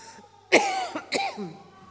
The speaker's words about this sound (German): Wenn ich mal huste, ist das nicht Corona, tatsächlich nicht.